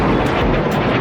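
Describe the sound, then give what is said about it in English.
Loud, steady roar of rockets and drones fired from Lebanon toward Israel by an armed group during wartime, a dense rumbling wash with no clear breaks, heard alone. “Rockets and drones fired at Israel from Lebanon by the armed group Hezbollah.”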